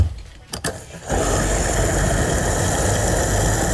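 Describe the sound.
Gas pump running while filling up: after a few brief clicks, a steady mechanical hum sets in and holds evenly to the end.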